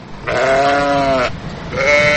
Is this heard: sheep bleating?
yes